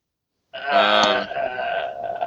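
A woman groans in one long, drawn-out voiced moan that begins after a brief silence and holds at a fairly steady low pitch until the end.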